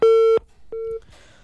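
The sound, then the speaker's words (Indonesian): A telephone busy tone after a dropped call: two loud, steady mid-pitched beeps separated by a short gap, the second slightly shorter and softer, followed by faint background noise. “Ibu Nur Leli, iya, terputus nampaknya. Ya, dicoba kembali Ibu Nur Leli.”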